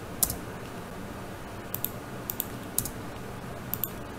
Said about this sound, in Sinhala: මම මේක නිකන් ටයිප් කරලා පෙන්නන්න.